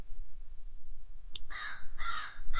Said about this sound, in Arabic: كملت بصوت الغربان اللي بتطاردني في أحلامي وبصحى عليها.